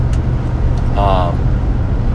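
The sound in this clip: A car driving along a road gives a steady, deep rumble with a constant hiss of road noise throughout. A short voice-like tone rises briefly in the middle.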